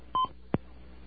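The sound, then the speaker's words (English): Telephone keypad tones dialing a collect call: one short, steady electronic beep, then a brief sharp click after a pause, with a low hum underneath. “If you want to place a collect call, dial 1-1. To charge this call to your calling card, dial your calling card number. To place a person-to-person call, dial 0 for the operator. We chose collect.”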